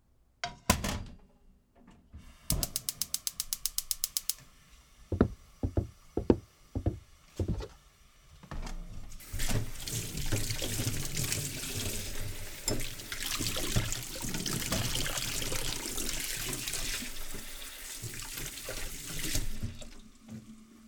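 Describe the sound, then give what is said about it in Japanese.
Dishes being washed at a kitchen sink: a run of clinks, knocks and a quick rattle of dishware, then the tap gushes with steady running water for about ten seconds before it shuts off. “じゃあこの洗い物洗ってくれる？”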